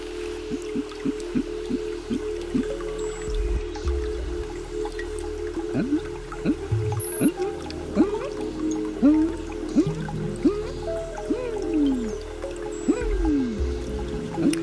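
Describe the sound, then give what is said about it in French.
Amazon rainforest ambience with dripping water, as many quick, falling plinks repeating irregularly over a steady, layered background hum, with a few soft low thuds underneath. “On est vraiment dans l'Amazonie. On peut en écouter quelques secondes.”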